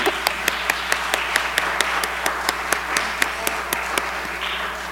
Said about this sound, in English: It will be their 50th anniversary, which is a long time. Y'all give them a hand for that.